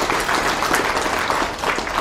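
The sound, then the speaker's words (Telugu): An audience applauds with dense, continuous clapping, steady and fairly loud throughout, without pauses and without talking over it. “చప్పట్లు కూడా ఇక్కడికంటే గట్టికి కొట్టారు, బాగా కొట్టారు ఇక్కడ కొట్టారు.”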